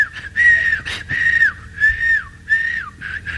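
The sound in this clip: A person whistles a short tune of repeated bright, clear phrases, each note rising and then sliding downward, with brief gaps between the phrases and fairly loud throughout.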